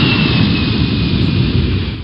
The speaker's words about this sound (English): Williamsport Regional Airport. Cleared for takeoff.